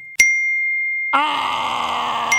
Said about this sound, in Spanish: Fío, ya te mandó otro mensaje.